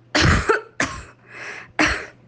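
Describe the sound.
Four harsh, breathy coughs in quick succession, the third softer and more drawn out than the others, with no talking around them.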